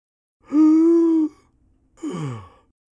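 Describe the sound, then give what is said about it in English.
A deep breath drawn in by an overexcited person trying to calm down, voiced and held for nearly a second, then a shorter breath out that falls in pitch. “Take a deep breath. Another one.”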